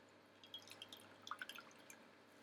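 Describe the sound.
Water drips in many small, quick plinks that fall irregularly and close together, faint and alone.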